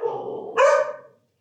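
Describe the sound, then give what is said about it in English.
A dog barks from across the street, about 100 yards from the house: one drawn-out bark or yelp lasting about a second, clear and alone, then silence. “hold please while a dog walks by our house 100 yards away. On the other side of the street.”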